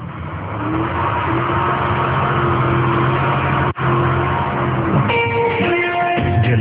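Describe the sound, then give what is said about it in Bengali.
A car engine runs and accelerates as the car drives off: a loud, steady rumbling drone with a brief cut partway through, and some steady tonal hum toward the end. “Driver please please গাড়ি start দেন, একটু তাড়াতাড়ি যাই। হ্যাঁ, গাড়িটা একটু তাড়াতাড়ি চালান।”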